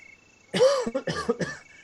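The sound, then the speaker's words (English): A creature coughs in a cavern with three hoarse, throaty bursts in quick succession. Each one is loud and rough, and no other sound accompanies them. “and the keeper coughs, and static electricity flies all over the cavern from the force of this”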